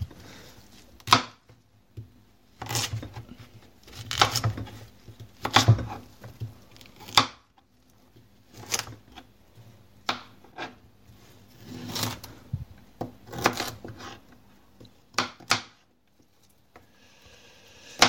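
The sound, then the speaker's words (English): A knife chops broccoli into bite-sized florets, making many sharp, irregular cuts and thumps on a board separated by short quiet gaps, some landing in quick pairs. “Now I'm just going to chop it into, like, bite-sized florets.”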